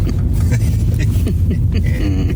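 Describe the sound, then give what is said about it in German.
Low engine rumble of a car being parked in a parking lot, a steady, loud motor drone that holds throughout the short stretch with little change. “Ich nehme aber noch das Einparken auf dem Parkplatz auf, weil vielleicht eskaliert es jetzt hier.”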